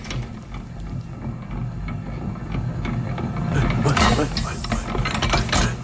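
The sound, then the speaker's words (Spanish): A mixer with rotating arms churns, giving a steady mechanical rattle and grinding clatter that swells somewhat louder toward the end. “¿qué es este sonido? Esto es una mezcladora, uno de estos brazos que van girando.”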